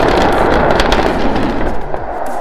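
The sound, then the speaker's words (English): A SpaceX Starship rocket exploding in a fireball during a test-flight landing: a loud, continuous roaring blast thick with crackling, popping bursts from start to finish. “another SpaceX Starship super rocket has ended up in a fireball in a spectacular landing fail.”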